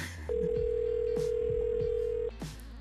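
A telephone call rings while waiting to connect: one long, steady, mid-pitched tone holds for about two seconds over faint background sounds, then cuts off.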